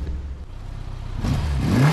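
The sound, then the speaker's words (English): Engine of a Honda Goldwing touring motorcycle: a low rumble that swells louder about halfway through, with a faint rising whine near the end. “He's touring New England on a Honda Goldwing.”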